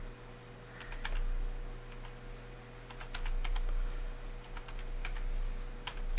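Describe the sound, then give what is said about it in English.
Typing on a computer keyboard: many light, irregular key clicks come in quick runs and short pauses over a low, steady hum. “I can't type and talk at the same time, otherwise things like this happen.”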